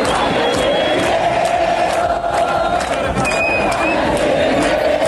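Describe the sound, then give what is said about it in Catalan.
Argentina fans celebrate in a Barcelona city square after a World Cup result: a dense, continuous roar of crowd cheering and chanting with whoops and shouts, loud and unbroken throughout. “És el so de la plaça de les Glòries, l'escenari de la gran celebració de l'Argentina amb un España tiene miedo.”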